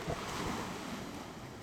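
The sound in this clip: Sea waves in a video game make a steady, dense rushing wash with a windy hiss, continuous and fairly loud, with no voices.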